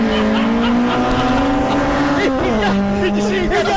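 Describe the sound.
A 1989 Honda Civic doing a burnout in lane two at a drag race: a loud, sustained engine drone at steady pitch, with tire noise, that wavers and drops lower partway through before holding again to the end.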